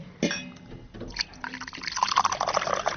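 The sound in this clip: Fresh water is poured from a jug into a glass: a short splash, then a steady gurgling stream that continues to the end.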